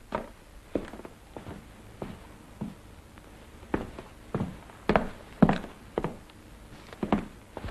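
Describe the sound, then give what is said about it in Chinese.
Heavy riding-boot footsteps of Chiang Kai-shek on the floor upstairs: many dull thuds at a steady walking pace, some heavier than others. “楼上传来蒋介石沉重的马靴声。”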